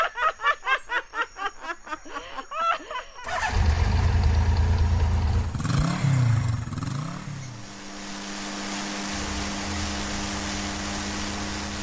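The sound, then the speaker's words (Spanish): Laughter in quick bursts, then a motorcycle engine starting once its fuel valve has been opened. It catches with a rumbling surge, revs briefly, then settles into a steady low idle hum. “Las hermanas se ríen, abren la llave de la gasolina, prenden la moto y siguen su rumbo a casa.”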